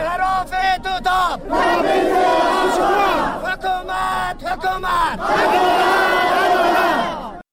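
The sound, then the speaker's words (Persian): Protesters at a demonstration in Bamyan, Afghanistan chant in loud rhythmic unison, repeating phrases separated by short pauses, with the massed voices swelling on each line. “امروز شمار از باشندگان بامیان به خاطر تصمیم اخیر حکومت مبنی بر تغییر مسیر این پروژه دست به تظاهرات زدند.”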